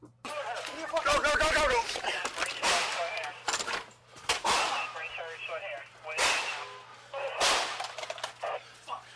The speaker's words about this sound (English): All right, so that sounds like what, four shots? Four shots.